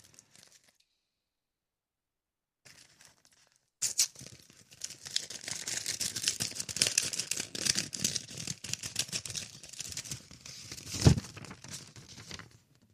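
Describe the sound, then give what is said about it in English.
Paper envelope being torn open: after near silence and a brief rustle, a long stretch of crisp tearing and crinkling runs for several seconds, with one sharper crunch near the end. No voices. “Let's open up this envelope and see what we got.”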